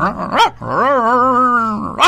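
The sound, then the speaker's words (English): A person imitates a dog barking, pitched as a Chihuahua and St. Bernard mix: a short yelp, then a long, drawn-out, wavering howl-like bark, then another short yelp, all loud and alone. “what kind of a dog is that? Oh, that was a Chihuahua St. Bernard combination.”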